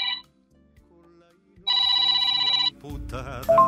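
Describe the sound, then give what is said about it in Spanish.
An electronic ringtone signals an incoming phone call: a bright, sustained tone rings loudly for about a second, then gives way to warbling melodic tones over low background sound. “Disculpando un poco la interrupción de una llamada telefónica.”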